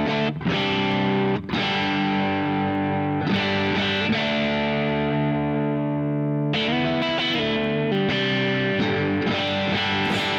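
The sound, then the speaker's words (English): Fuzz-driven electric guitar chords, played through both humbuckers in the middle pickup position and an optical compressor. A handful of loud strummed chords ring out alone with thick, buzzy, long sustain. “So this is what it sounds like in the middle position.”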